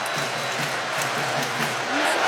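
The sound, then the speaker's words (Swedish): Crowd noise at a football match in Boston between England and Ghana: a broad, continuous roar with chant-like calls, swelling slightly louder at the very end. “Och publiken i England, eller publiken i England, ja de också såklart, men publiken i Boston försöker, de gör allt vad de kan. England hit, England dit”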